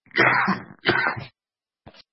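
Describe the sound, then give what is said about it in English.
A person coughs, giving two harsh, throaty bursts in quick succession, then a brief faint one after a pause. “I'm sorry, I'm about to cough.”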